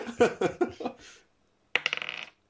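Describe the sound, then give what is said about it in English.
A twenty-sided die rolls during a tabletop role-playing game, heard as a short burst of quick clattering taps that follows a brief stretch of voice. “think carefully before you pick up this dice. Which one is the D20? Hey! Roll to pick the right dice.”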